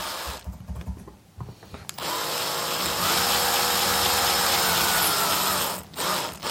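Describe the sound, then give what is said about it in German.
A power drill bores two finger holes into a carrot flute. A steady, loud whirring grind runs for about four seconds with a brief dip near the end, after some short knocks and handling sounds. “Ich mach mal zwei Löcher für meine Finger.”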